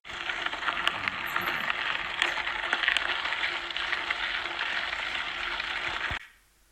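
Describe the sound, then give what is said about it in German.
A mountain bike rides over gravel, making a steady rushing crunch scattered with sharp clicks and rattles. It holds even in level, then cuts off abruptly near the end. “Was ist es? Es ist Mountainbike.”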